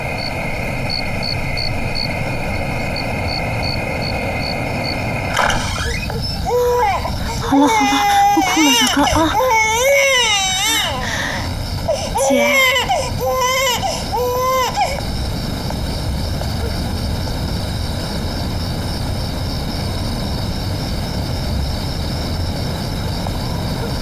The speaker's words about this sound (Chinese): 好了好了，不哭了，小哥啊！